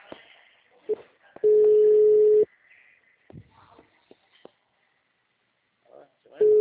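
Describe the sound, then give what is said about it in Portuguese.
Ringback tone of a phone call that goes unanswered: a steady, mid-pitched beep lasting about a second, then a long gap with faint voices and clicks, then the next beep starting. “Chamando, não tá atendendo?”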